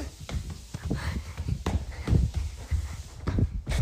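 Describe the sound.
Footsteps of someone running around a house: many quick, uneven thuds and scuffs in an irregular rhythm, fairly soft, with no talk over them.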